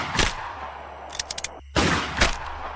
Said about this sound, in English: He fired 4 shots and managed to put 4 bullets into the chest of his former friend.